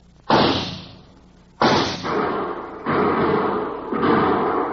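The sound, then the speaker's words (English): Four gunshots fired in a standoff by men sheltering behind a ledge. Each is a sharp, loud crack with a long, decaying tail, spaced roughly a second apart. The later shots overlap the fading tails of the earlier ones. “Let's draw the fire of the men they left and see how they're grouped. We'll each fire once.”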